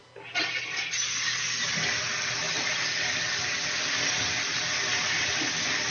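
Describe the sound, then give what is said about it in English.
Tap water runs as hands are washed under it, starting abruptly and then holding a steady, loud hiss. “I might be washing my hands.”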